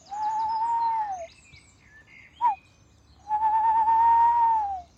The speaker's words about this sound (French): on peut encore entendre de la chouette hulotte ici sur le parc de la Citadelle